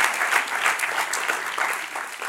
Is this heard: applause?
yes